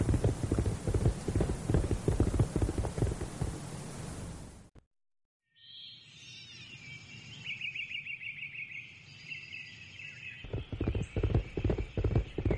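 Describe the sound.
Horse hooves clip-clop in a steady rhythm as riders set off on horseback, loud at first, then cut off by a brief silence. Birds chirp during the quieter middle stretch before the hoofbeats return.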